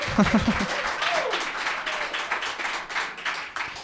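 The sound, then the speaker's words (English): An enthusiastic audience at Folkelarm, a Norwegian folk music showcase festival, applauds with steady, dense clapping that continues throughout. A voice is heard briefly at the start. “we're recording this episode in front of a very enthusiastic audience”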